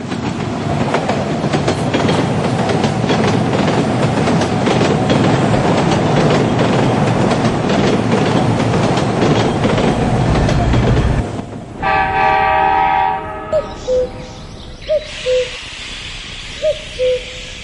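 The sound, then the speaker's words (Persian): Trains passing: a loud, steady rumble and rattle fills roughly the first eleven seconds, then gives way to ringing tones and several short hooting bird calls. “قطارها می روند و می آیند”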